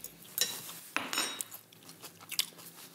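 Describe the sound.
Crunchy biting and chewing of a salad with caraway and onion: a few crisp, faint crunches with soft clicks in between, and no talk.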